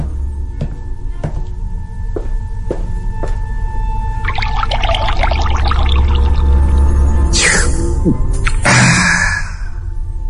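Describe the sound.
Drinking water pours in a kitchen as a bubbly, splashing trickle lasting a few seconds over a low steady hum. A few faint ticks come before it and a couple of louder clunks follow.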